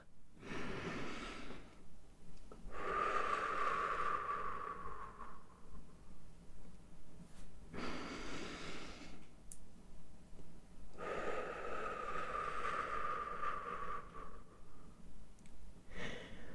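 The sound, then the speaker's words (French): Slow, airy breathing in and out during a gentle head-circling exercise: four long, soft breaths separated by quiet pauses. “J'inspire en avant et j'expire en arrière.”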